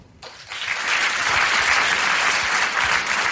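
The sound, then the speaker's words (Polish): Audience applause at a jury announcement. Dense clapping swells within half a second, then holds as a loud, steady roar of many hands until the end. “Dobrze mówiłeś, że będzie dużo klasków dzisiaj.”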